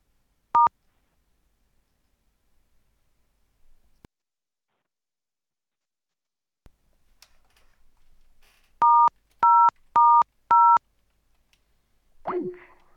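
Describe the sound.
Telephone keypad dialing tones: a single clear two-tone beep, a long quiet gap with faint rustling, then a quick run of several more keypress beeps, followed by a short soft noise at the end.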